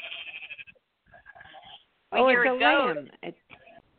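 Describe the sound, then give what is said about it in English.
A goat or lamb bleats in the background, one loud, wavering, quavering cry partway through, with quieter talk before and after it. “I hear a goat or a lamb in the background.”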